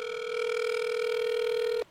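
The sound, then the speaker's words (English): A telephone tone sounds after a number is dialed on a mobile phone: one steady, loud electronic beep held for almost two seconds, then cut off abruptly. “Special takes out her phone and dials Mayhem's number.”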